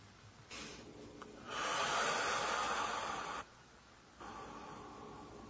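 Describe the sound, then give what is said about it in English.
A deep breath taken together during a guided prayer session: a soft breath, then a long, loud rush of air lasting about two seconds, a short pause, and another softer breath. “Now let's take another deep breath.”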